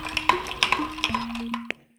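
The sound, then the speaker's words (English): Spoon stirring and ice clinking as a classic icy Persian sharbat is made with plenty of ice, grated cucumber and fresh mint; a few bright clinks over a soft swirling rattle, with no talking. “That, my friends, is pure audio refreshment. Otherwise known as the sound of the grand dame of Iranian cooking in the U.S. making a classic icy Persian treat. It's called Sharbat.”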